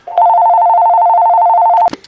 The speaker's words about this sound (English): I apologize for the phone. I'm going to turn the phones off right now.